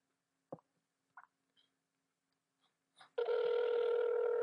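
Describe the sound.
A telephone call is hung up: a few faint clicks, then a loud, steady line tone with a buzzy, harmonic edge that holds to the end.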